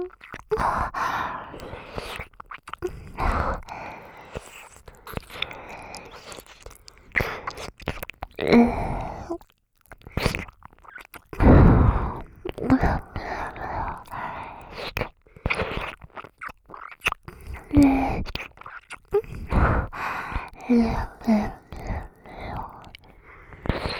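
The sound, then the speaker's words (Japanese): Close ASMR ear licking and wet mouth sounds in an older sister role-play, with irregular smacks, slurps and soft whispered breaths coming in bursts with short silences between. “お姉ちゃんにお耳舐められるの、癖になってきてるよね。”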